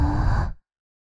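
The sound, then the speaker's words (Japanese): A single soft, breathy exhale blown into the listener's ear to close an ASMR ear-cleaning roleplay: a steady, airy hiss of about half a second that tapers off quickly into silence. “仕上げに、お耳に息を吹きかけますね。”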